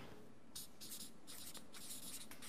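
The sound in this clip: Handwriting strokes as the word Machaeus is written out by hand: a few quick, scratchy bursts of rubbing over a soft hiss, quiet and without any talk.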